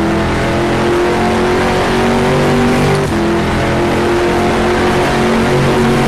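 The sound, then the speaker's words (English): A race car engine roars under hard acceleration in a racing simulator on the Le Mans circuit, heading from Arnage toward the Porsche curves; the loud, steady, droning tone holds throughout with a brief dip midway. “Drop it down to first gear through Arnage. Going through there much faster this time around, about 54 miles an hour, and hard on the accelerator towards the Porsche curves.”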